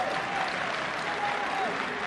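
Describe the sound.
Audience applause at a comic stage performance, a continuous, fairly loud wash of clapping that stays even throughout the short clip.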